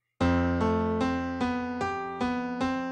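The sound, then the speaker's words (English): Piano music accompanying a TV series theme: seven evenly spaced, ringing chords struck one after another, each sustaining into the next, played alone. “there's this wonderful piano thing that kind of accompanies it that sounds like this.”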